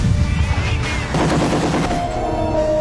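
Sustained gunfire after a shouted order to fire in a D-Day battle scene: heavy, continuous machine-gun bursts and shots that form a loud, dense barrage throughout, with no voices.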